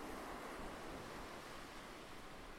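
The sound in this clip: Ocean waves crash against rock, heard as a faint, steady wash of surf with a soft hiss and no distinct breaks.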